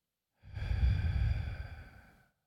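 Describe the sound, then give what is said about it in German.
A slow exhaling breath taken during a guided breathing prayer: a single soft, airy sigh that swells quickly, holds steady for about a second and a half, then tapers away alone with no talk over it. “Ich kann einatmen und sagen, Jesus lebt in mir. Und ausatmen,”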